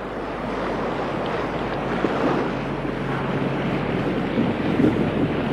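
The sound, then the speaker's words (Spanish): Ship sailing fast across the choppy waters of the Great Belt in a strong breeze. A continuous, fairly loud rush of wind and water runs over a low rumble, with no voices. “A las 10:15, soltadas las amarras, el Elinora surcó rápidamente las aguas del Gran Belt. La noche era oscura. Soplaba una fuerte brisa y el mar estaba algo picado.”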